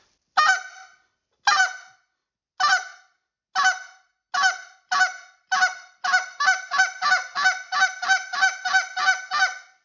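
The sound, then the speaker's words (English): Goose honks blown on a hand call for late-season goose hunting: sharp two-part honks that start slow and evenly spaced, then speed up into a rapid run of many notes, fairly loud and alone. “Once you get that, get the 10 notes going, then you're going to start speeding that up, and it's going to sound like this.”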